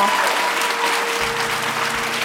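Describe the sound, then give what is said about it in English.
Audience applause after an onstage conversation at Town Hall Seattle, a dense and loud clapping that holds evenly for the whole short stretch. “Give Claire and Cheryl a round of applause.”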